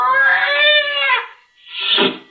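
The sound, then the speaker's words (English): A scrawny cat yowls: a long, drawn-out meow with rich wavering harmonics, a brief pause, then a shorter, rougher cry. Both calls are loud and stand alone without any talk. “Slowly, it moved into my line of vision. It was a cat.”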